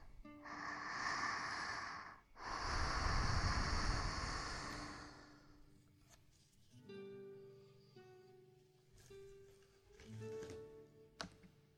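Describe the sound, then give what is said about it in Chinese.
Deep breathing: two long, loud, breathy rushes of air, followed by quieter, softer sounds. “跟着我深呼吸”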